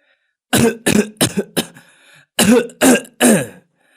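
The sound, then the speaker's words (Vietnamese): An elderly man lying on a bamboo bed coughs hard: two bouts of harsh, throaty coughs, the first a fast cluster of short bursts, then after a brief pause three heavier, louder coughs, with no talking. “Ông Năm nằm trên cái giường tre ho khổ khổ, lắc đầu phẩy tay bảo cô.”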